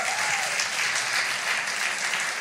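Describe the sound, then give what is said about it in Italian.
Warm audience applause welcoming a guest onto a stage, a dense, even clatter of many clapping hands that holds steady at one level throughout, with no voices over it. “quindi vi prego veramente di accogliere con un caloroso applauso Marco”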